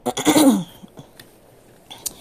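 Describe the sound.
A person clears their throat in one rough, raspy burst during a talk, followed by quiet with a few faint small sounds.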